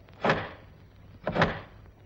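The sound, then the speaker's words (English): A door slammed shut and bolted, heard as two sharp knocks about a second apart, each a dull thud with a brief rattling tail. “and bolted the door in Henry's face.”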